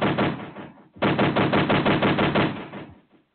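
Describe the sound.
Rapid bursts of automatic gunfire from a sound effect in a played song: two long, loud, rattling volleys separated by a brief pause, then the firing stops.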